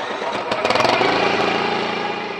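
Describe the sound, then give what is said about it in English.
A small one-cylinder Subaru Robin engine of about 7 horsepower on a kayak at a dock sputters into life with a few quick pulses, then settles into a steady, buzzy, lawnmower-like drone. “It sounded to me like a lawnmower. Yeah. It's a little one-cylinder Subaru Robin engine. It's about 7 horsepower.”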